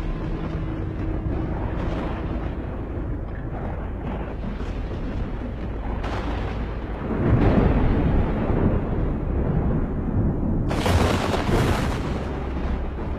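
Thunder from a lightning bolt striking the corner of a house garden: a loud, continuous deep rumble that swells into a heavier crash partway through, then a brief bright crackling burst before settling back to a rolling roar.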